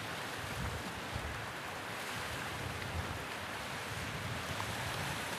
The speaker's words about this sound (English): Isn't that beautiful? I wish you were here so you can see the sea.